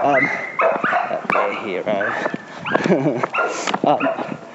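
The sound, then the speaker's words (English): A dog barks as it passes, a few short yips mixed with whining, whimpering cries that waver up and down in pitch. “I just walked past another dog.”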